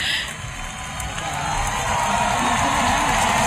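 Concert audience cheering euphorically, a dense wash of crowd noise and applause that dips briefly near the start, then swells and grows louder toward the end.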